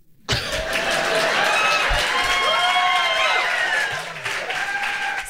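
Audience applause erupts suddenly at a live comedy show in Chicago, with cheers and high whoops riding on top. It stays full and loud, then thins slightly toward the end.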